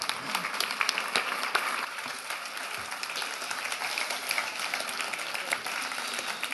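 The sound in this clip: Warm audience applause welcoming a speaker onto a stage at a talk, a continuous dense patter of many hands clapping at a steady level throughout.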